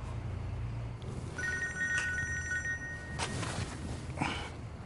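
A telephone rings over a noisy background, a short run of steady electronic tones that cut off partway through as the call is declined, with no one speaking.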